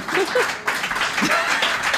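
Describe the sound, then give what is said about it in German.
Subdued applause from an audience: a steady, soft wash of clapping that runs for about two seconds without strong peaks. “Ja, verhaltener Applaus hier.”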